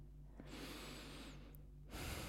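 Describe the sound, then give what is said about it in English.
A big breath drawn by a person reading a poem aloud: one long, airy rush lasting over a second, faint and alone, followed by the onset of another breath. “Big breath.”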